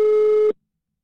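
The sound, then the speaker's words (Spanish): Telephone busy signal after a call is hung up: a single steady, loud tone lasting about half a second that cuts off into silence. “Me colgó la llamada”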